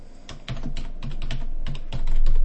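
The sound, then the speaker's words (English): Someone types a search term on a computer keyboard: many quick, crisp key clicks in an uneven rhythm, growing louder toward the end. “I have typed in Northwoods and hit search.”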